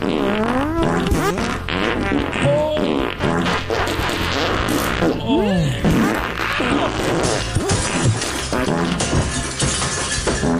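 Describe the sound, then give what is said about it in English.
Fart sounds in a rapid montage, many loud, sputtering and squeaky blasts of varied pitch tumbling one into the next with barely a gap, forming a dense, continuous barrage. “And now here's a montage of other fun farts.”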